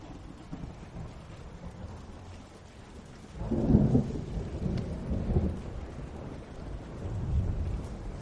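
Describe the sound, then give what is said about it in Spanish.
Thunder during a lightning storm, a low rumble that swells after several seconds of steady rain and fades back, with a softer rumble returning near the end. “El salón está en penumbra, iluminado por los relámpagos.”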